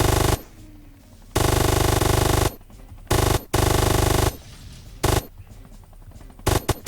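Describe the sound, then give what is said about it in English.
Rapid machine gun fire in a video game: loud, sustained automatic bursts broken by short pauses, with several long rattling volleys and a few brief stutters toward the end. “So this is why I often take the rapid machine gun.”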